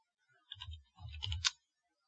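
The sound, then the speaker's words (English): Soft clicking of keys on a computer keyboard as someone types into a search box: a short, faint burst of quick taps, heard alone. “Well, let me type in the search box. I'm going to type in”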